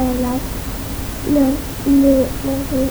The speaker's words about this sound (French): C'est pas tout à fait un réveil, ça s'appelle un coucou. Ouais, c'est une pendule. Ils appellent ça une pendule dans les livres. Et donc, effectivement, le coucou, quand il sort de la pendule, il fait du bruit.